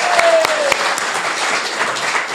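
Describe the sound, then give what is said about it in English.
Audience applause welcoming a volunteer on stage, opening with a few sharp individual claps that merge into a steady, loud wash of clapping. “Give him a real round of applause.”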